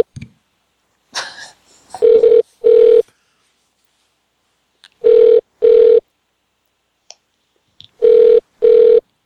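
A telephone line rings while waiting for someone to answer: three double rings, each pair a steady mid-pitched buzzing tone separated by silence, after a brief burst of noise and a few faint clicks at the start.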